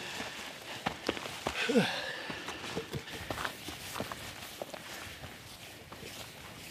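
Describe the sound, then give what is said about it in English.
Footsteps climbing onto a rocky outcrop near the top of a ledge: many quiet, irregular scuffs and taps on rock, uneven in rhythm and never very loud. “So we've just climbed up onto this kind of rocky outcrop near the top of the ledge”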